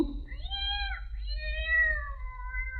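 A cat meows in one long, drawn-out, wavering cry with rich harmonics that sag and rise in pitch, heard over a low steady hum.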